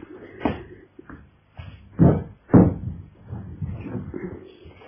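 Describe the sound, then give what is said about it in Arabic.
A window is shut after someone climbs onto a chair beside it. Several wooden thumps and knocks lead into two heavier bangs, then softer rattling follows. “ولا اقفلك الشباك؟ هتعرف تقفله؟ لا بسيطة، نحط الكرسي جنب الشباك ونطلع عليه.”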